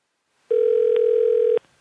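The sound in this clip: A telephone dial tone sounds as a caller prepares to dial, holding a single steady pitch for about a second. Faint clicks are heard within it before it cuts off.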